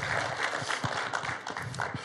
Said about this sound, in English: if you're visiting today, here in person or online, we welcome you by applauding. You're just simply saying welcome.